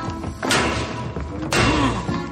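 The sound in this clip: A head bangs against a cage: two heavy, loud thuds about a second apart, each followed by a ringing, tonal resonance.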